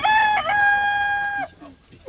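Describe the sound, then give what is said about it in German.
A rooster, conjured by magic from a piece of paper, crows once: a loud, clear, tonal cock-a-doodle-doo lasting about a second and a half, then fading into quiet. “Meine Zauberkraft reicht aus, dieses Stück Papier in einen Hahn zu verwandeln.”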